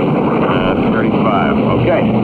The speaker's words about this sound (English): run the engines to 2,535 inches.